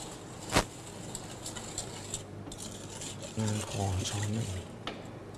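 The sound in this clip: A spoon stirs sugar into a cooking sauce. There is a sharp clink near the start, then soft scraping and light tapping, with a brief voice partway through.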